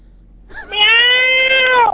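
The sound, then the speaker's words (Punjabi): A cat lets out a single long, loud meow. The tone is clear and high-pitched, holds steady, then dips slightly and cuts off. “ਬਿੱਲੀ ਵੀ programme ਪੱਕਾ ਸੁਣਦੀ।”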